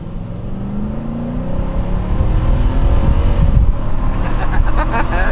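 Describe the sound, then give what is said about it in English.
A truck's 5.6-liter Endurance V8 engine revs in a loud, continuous deep roar, with rising tones in the first half as it builds and a steady rumble through the rest. “Sorry, just had to indulge myself with your 5.6 liter Endurance V8 there for a moment. I apologize for interrupting, but that thing just sounds so good.”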